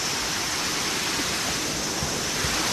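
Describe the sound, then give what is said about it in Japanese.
A high-volume waterfall in the middle of a city gives a constant, loud roar of rushing water, unbroken from start to finish. “すごいなこの水量。 おお、滝だ。”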